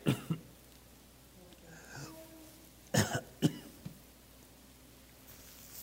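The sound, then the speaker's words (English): Soft coughing from an adult man: two quick pairs of short, dry coughs separated by a pause, with a faint throat sound between them, heard alone against quiet background. “I can't get excited. It makes me cough.”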